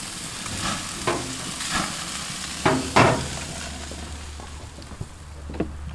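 Food sizzles on a grill, a steady crackling hiss with scattered scrapes and knocks, likely from a spatula, rising briefly above the frying noise.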